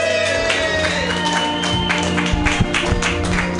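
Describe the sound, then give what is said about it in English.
Steady, dense applause from an open mic audience welcoming a comedian to the stage, the clapping holding at an even level throughout. “Everybody, put your hands together for the very funny Theo Hull.”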